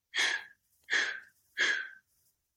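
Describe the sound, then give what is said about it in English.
Three forceful breaths out through the mouth during a guided breathwork exercise, each a short breathy whoosh about half a second long, evenly spaced with brief silences between them. “And at the bottom of that exhale, 3 more breaths out.”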